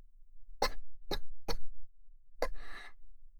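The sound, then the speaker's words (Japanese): Choking coughs after sipping bitter coffee: four short, sharp coughs in quick succession, followed by a rasping, breathy wheeze. No talk. “ご好意でいただいたのにむせてしまうなんて”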